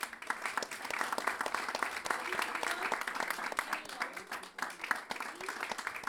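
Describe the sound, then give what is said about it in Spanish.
Audience applause at an evening improvisation event in Chile, a continuous spread of many hands clapping at moderate volume for about six seconds. “Alexis Díaz Pimienta, aplausos, ¿no?”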